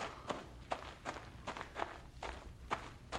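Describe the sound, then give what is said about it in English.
Footsteps of people walking along together: a steady run of soft, dull thuds at an even walking pace, moderately loud, with no voices. “Well, let us walk along.”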